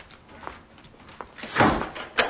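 A door is locked from inside as someone enters a home: a few soft clunks and thuds, with the later knocks sharper and louder than the faint early ones.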